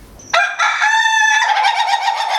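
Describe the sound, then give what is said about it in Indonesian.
A rooster next door crows loudly: one long, drawn-out, harmonically rich call that breaks and then carries on in a wavering tone, with no talking over it. “Maaf ya kalau ada suara ayam, karena di sebelahnya.”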